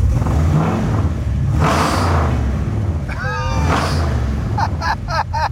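An engine revs as the throttle is given gas, a loud continuous rumble and roar with a few swooping whine tones in the middle and choppy bursts toward the end.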